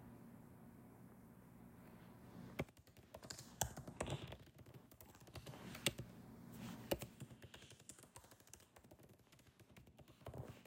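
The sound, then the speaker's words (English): Typing on a computer keyboard: many quiet, irregular keystrokes in uneven bursts, with occasional louder taps and no talk. “I'm literally looking up. I'll tell you after I type it.”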